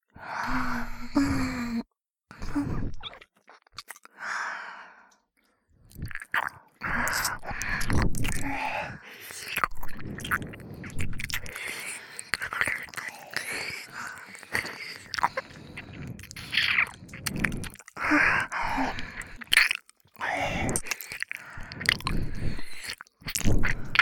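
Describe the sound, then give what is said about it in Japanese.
Wet chewing and biting as food is eaten, with irregular squishy mouth sounds and pauses. Breathy gasps and sighs come between bites. “みんなで一緒にお口をあーんってしていただきまーす”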